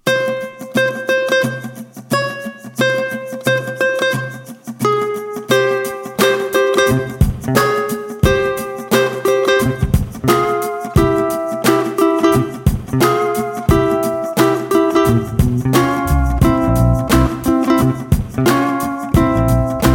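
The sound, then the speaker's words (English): Chromatic guitar melody of picked single notes, first heard alone, then joined by a backing track with bass and drum hits that thickens the sound while the winding line continues on top. “But here we have a chromatic melody.”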